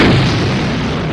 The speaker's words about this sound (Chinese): 4321起爆。